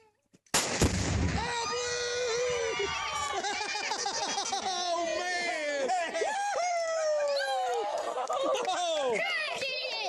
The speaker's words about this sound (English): Couples pack a little box of explosive pink or blue chalk and then shoot it with a high-powered rifle.